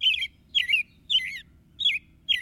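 Robin song: five short, clear whistled phrases with a warbling, caroling lilt, separated by brief pauses, over a faint low rumble.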